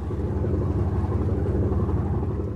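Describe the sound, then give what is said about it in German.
A boat's engine drones steadily as it leaves Newport Beach harbour for the open sea. It makes a continuous low rumble with an even throbbing pulse and no voices. “Mit diesen Vorkenntnissen legt die MS Ocean Explorer ab, verlässt den Hafen von Newport Beach und fährt ein paar Meilen hinaus aufs offene Meer.”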